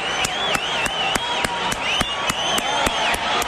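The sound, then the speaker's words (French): A crowd gives a standing ovation for health workers' unions, clapping in a steady, rhythmic unison beat while loud cheers and whoops ring out over the clapping. “Moi, j'aimerais qu'on fasse là, un gros standing ovation là, pour tous les syndicats du travailleur, des travailleurs de la santé.”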